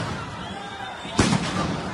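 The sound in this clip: A police stun grenade fired at protesters in a city plaza goes off as one sharp, loud bang about midway through, cutting through a steady, noisy crowd background.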